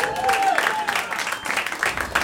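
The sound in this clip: Audience applause for performers being introduced on stage at a live show. Steady, dense clapping holds at an even level throughout, with a few thin high tones rising above it.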